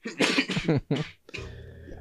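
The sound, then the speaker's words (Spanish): A person coughing: a few harsh, throaty bursts in quick succession, then a brief pause and a rougher, drawn-out rasp like throat clearing, fairly quiet overall. “estaba con una tos ahí”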